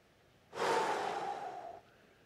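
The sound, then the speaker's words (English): A single long, deep breath drawn by a preacher during a church sermon, one steady airy rush lasting a little over a second, loud and alone with no talk around it. “I have to just take a deep breath.”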